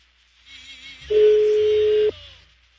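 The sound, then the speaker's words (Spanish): A steady telephone line tone while a call is placed to a food vendor: one even, mid-pitched tone holds for about a second over faint background hiss, then cuts off abruptly. “Estoy marcando.”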